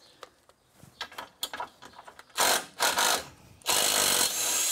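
Fiddling with the screws on a machine that was put away half-dirty last year: scattered clicks and taps, then several loud bursts of whirring, drill-like mechanical noise, with no talking.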